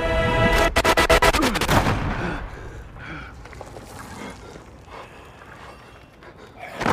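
Automatic weapons fire in a rapid burst of many sharp, loud shots for about a second, then gives way to quieter, scattered noises.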